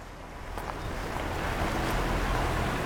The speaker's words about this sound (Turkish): Suyun çok ilginç bir şekilde çikolata kahvesi renginde olduğunu görüyorsunuz. Bu çok fazla sediment taşımasından kaynaklanıyor. Nehrin hacmi ve akış hızı şu anda çok yüksek.